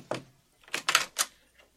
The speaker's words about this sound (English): When George reached Neosho, he walked up to a certain familiar little cabin and knocked.